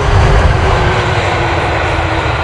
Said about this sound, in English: Touchdown in Sydney, 19 hours and 16 minutes after takeoff from New York.